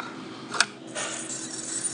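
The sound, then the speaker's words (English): A coin tinkle from a card-reading tip jar after a credit card is inserted: one brief, bright metallic clink, faint over a low, steady background hum. “I heard a tinkling sound of coins, which means that I can do step 3”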